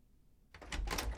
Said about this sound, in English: Tammy unlocks the front door of their house, and she and Andy step inside.